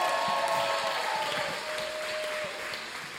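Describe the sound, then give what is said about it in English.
A church audience gives an ovation to welcome a guest preacher, a quarterback, to the stage. The clapping is thick and continuous, loud at first and easing slightly after about halfway. “Come on, let's give him a big ovation.”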